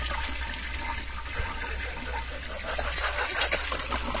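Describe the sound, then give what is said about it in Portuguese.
A toilet flushing in the background: a steady, fairly faint rush of water that lasts throughout, with no talk over it. “Pra que que vão soltar descarga? Logo um descargão, né? Pra que um descargão de fundo?”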